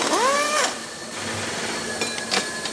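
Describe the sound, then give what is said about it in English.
A power wrench whines as it opens a metal mold for plastic mannequins in a large factory, with a brief curved whirring burst at the start, then a lower steady mechanical hum and a couple of short sharp bursts near the end. “A worker opens the metal mold with a power wrench.”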